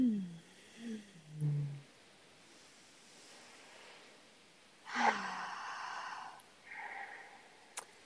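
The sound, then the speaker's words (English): Deep breathing during a guided relaxation pause: soft, slow breaths with airy, breathy exhales that swell and fade. A few low voiced sighs come first, then longer hushed exhalations later, all quiet against a faint background hiss. “I just want to take a couple minutes to just take a couple deep breaths. If you're listening, you can do it with us too.”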